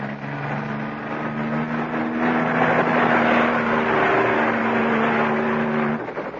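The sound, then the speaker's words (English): A small helicopter engine starting up for takeoff from an open field, a steady, loud mechanical drone with a low, even humming tone that holds throughout, with no voices. “A small helicopter sat there, waiting. A burly, ugly-looking pug sat at the controls. Erica addressed him as Franz. Seconds later, we were in the air.”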